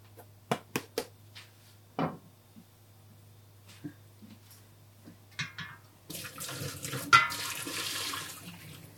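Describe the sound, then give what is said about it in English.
Tap water runs while water spinach is washed. Several light clicks and knocks come first, then water gushes in a steady, hissing rush for the final few seconds, louder than the sounds before it. “But still, I'm gonna wash my water spinach.”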